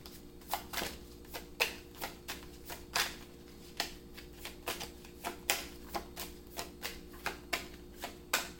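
Tarot cards being shuffled and drawn from a deck: many crisp snaps and flicks in an irregular rhythm, moderately quiet, with no voices.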